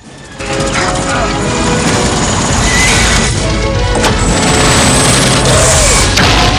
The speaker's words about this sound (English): Zeisson fires, setting the tank alight.